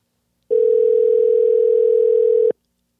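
Steady telephone tone as a call is placed to a live caller: one unbroken, loud, even hum lasting about two seconds, alone, with silence before and after.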